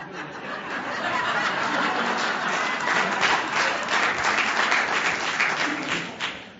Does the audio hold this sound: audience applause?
yes